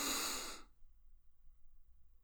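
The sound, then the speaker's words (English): A deep inhale from the stomach during a stress-relief breathing exercise: one breathy rush lasting about half a second, then near silence. “Her favorite technique is to inhale from your stomach for 6 seconds. Do it with me.”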